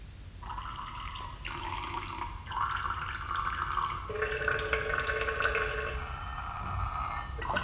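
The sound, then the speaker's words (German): Radio-drama effect of urinating into water: a steady watery stream whose sustained tones shift in steps like a short melody, continuous for about eight seconds with no talk. “Ich habe mir eine Melodie gepinkelt. Hör zu.”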